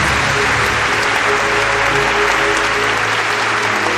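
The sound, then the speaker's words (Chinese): Prolonged, enthusiastic applause from a large audience after a speech, a dense, steady roar of clapping that stays loud and unbroken throughout. “极其热烈而持久的掌声”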